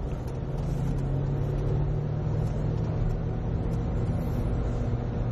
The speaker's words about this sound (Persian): اینم سرعت به خاطر گل روی شما.